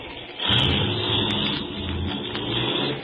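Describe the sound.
A car engine starts and the car drives off. After a brief quiet start, the engine comes in with a steady, mid-pitched roar that holds to the end, with no voices.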